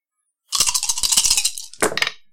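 Dice rattling and clattering for a wits roll in a tabletop game, a sustained rattle followed by a shorter second clatter, with no voices.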